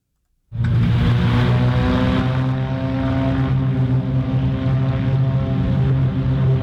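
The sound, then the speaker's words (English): Three Beechcraft Bonanza propeller planes take off from La Crosse Regional Airport. After a moment of silence, a loud, steady, droning engine roar starts abruptly and holds throughout. “That's the sound of three Beechcraft Bonanzas taking off from the La Crosse Regional Airport over the weekend on their way to Oshkosh.”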